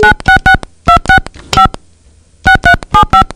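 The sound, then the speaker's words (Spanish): Touch-tone beeps sound as a telephone number is dialed again during an emergency-services call. Loud, crisp key tones come in a quick run, then a silent gap, then another run of beeps, with no voices. “Bueno, vuelvo a marcar.”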